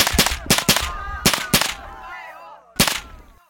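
Gunfire as refugees flee in panic: several sharp, loud shots crack in an uneven burst, then a lull filled with faint wavering cries before one more shot rings out.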